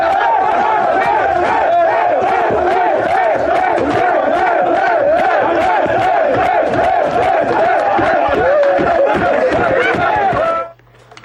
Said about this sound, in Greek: αυτό που μόλις ακούσατε είναι το μπουγέλωμα που δεν περίμενε ο Μάρκο Νίκολιτς την ώρα που έκανε δηλώσεις από τους παίκτες του. Μπήκαν οι παίκτες του στην αίθουσα όπου συνεντεύξεων και μπουγέλωσαν τον προπονητή τους.